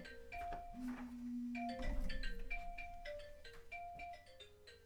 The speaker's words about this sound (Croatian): sad ćemo napraviti pauzu jer zaboravila sam isključiti mobitel.